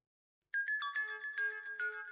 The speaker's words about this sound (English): What's that noise? What noise? That sound. I don't know. Oh, it's my phone. It's new.